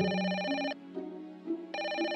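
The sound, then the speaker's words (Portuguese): Ringback tone of an outgoing telephone call: a steady, buzzy ringing tone that stops for about a second and then starts again, alone and fairly loud. “Procurando um pouco de contexto, eu liguei para o Leandro Gílio.”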